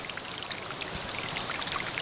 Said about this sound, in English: It really is a staircase out of sandstone that forms a waterfall.